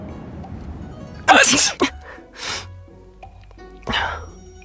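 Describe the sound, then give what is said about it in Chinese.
Acted sneezes in a Chinese audio drama, two men sneezing together in a dark room after a gust of wind: a loud breathy sneeze burst followed by a few softer bursts, with faint background noise. “两人默契的一个喷嚏”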